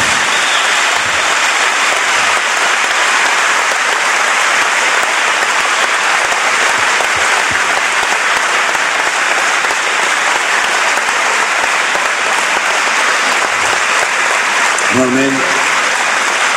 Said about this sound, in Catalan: l'únic que sí us demano és que els dongueu un fort aplaudiment a aquests jugadors